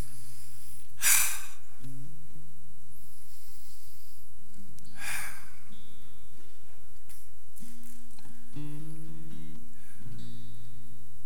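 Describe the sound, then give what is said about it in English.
Slow, deep breaths during a guided calming pause: long airy rushes of breath, two clearly marked, set against a soft, sustained tonal background with no words. “If you're comfortable, just for the transition of your mind, I just ask you to take 3 good breaths.”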